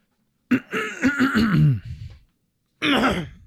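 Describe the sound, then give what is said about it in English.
A person clears their throat in an exaggerated, voiced way: first a long, gravelly rumble that sinks in pitch, then a pause and a second, shorter rasp. “My Harry Potter throat clear. My Ron Weasley throat clear.”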